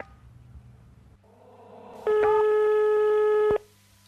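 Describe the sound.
A telephone line tone sounds while a call is being placed: one loud, steady electronic tone lasting about a second and a half that stops abruptly, with only faint background before and after it.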